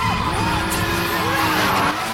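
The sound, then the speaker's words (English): A car spins around a corner in a car park and loses control, with skidding tyres. A loud, continuous engine roar carries whining, screeching tones that bend slightly as it slides. “Sean spins around the corner and loses control.”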